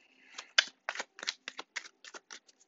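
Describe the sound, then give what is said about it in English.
Tarot cards from a Modern Witch deck being shuffled: a rapid run of many crisp, papery riffs and slaps, fairly quiet, with no voices. “I am shuffling the Modern Witch's Tarot.”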